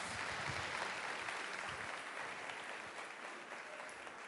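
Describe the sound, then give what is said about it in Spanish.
An audience at a sales talk applauds a man, a steady, even wash of many hands clapping that holds at a constant level throughout. “Un aplauso para el señor.”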